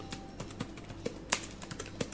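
Someone types on a computer keyboard to enter a name into a search. Many quiet, irregular key clicks follow one another in quick succession, with one slightly sharper tap partway through.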